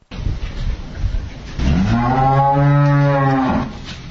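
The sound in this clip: A cow on a dairy cattle farm gives one long, loud, low moo of about two seconds, preceded by quieter rustling noise.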